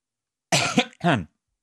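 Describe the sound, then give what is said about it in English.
Coughing right after nearly choking: two harsh, fairly loud bursts in quick succession, the first rougher and longer, the second a shorter hack, with no talk over them. “almost choked then”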